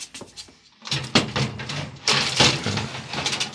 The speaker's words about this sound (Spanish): Abre y cierra un compartimiento, sin observar dentro de él nada importante.